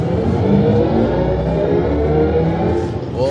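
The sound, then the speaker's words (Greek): A BMW electric car's artificial engine sound swells during kick-down acceleration, a synthetic, whirring drone layered over low road rumble. It holds loud and steady for the whole stretch. “Εμένα μου αρέσει που όταν κάνεις kick down, κάνε ένα kick down, να ακούσουμε και το θόρυβο λίγο. Το διαστημικό ήχο, δεν ξέρω αν θα ακουστεί.”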